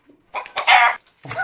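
A rooster crowing: one loud, raspy, strained crow, then the start of a second burst at the end.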